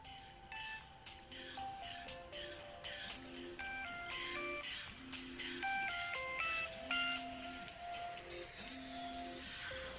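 A melodic electronic ring tone plays during an outgoing phone call to a son, a looping tune of bright short notes repeating in a steady pattern, moderately loud throughout.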